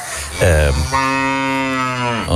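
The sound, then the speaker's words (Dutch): A cow moos loudly, a low, harmonically rich bovine call: a short bellow followed by a longer, sustained moo that fades at the end. “De koe voert het woord waarschijnlijk.”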